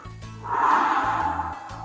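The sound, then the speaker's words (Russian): A voice imitates a wolf blowing on a straw house with one long, breathy whoosh that swells and then eases off, between faint low tones. “И тогда волк начал дуть.”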